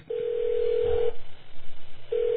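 Telephone tones as a call is dialed from jail: a steady, loud tone breaks off into a stretch of pulsing, uneven sound, then the steady tone returns.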